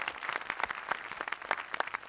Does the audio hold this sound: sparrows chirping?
no